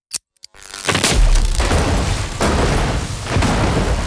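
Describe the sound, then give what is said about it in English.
Sonic detonations blast in a snowy trench. Two brief sharp pops come first, then a loud roaring boom that rumbles on and swells again twice in heavy bursts. “Three vengeful Astartes in the trench are caught in the blast and are deafened by the sonic detonations. The sound is deafening and the ringing carries on for several seconds.”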